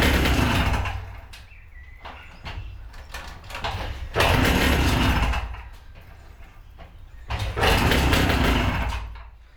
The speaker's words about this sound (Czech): Já to tady můžu startovat jenom jednou nohou.